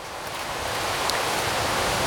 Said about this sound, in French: C'est le bruit du vent dans les feuilles sèches, cramées, brunies.